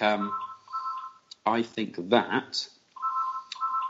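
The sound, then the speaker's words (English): A phone rings in short electronic tonal bursts, at the start and again at the end, with a voice talking in between. “Oh, sorry. I think that's Arsene ringing. He wants the job back.”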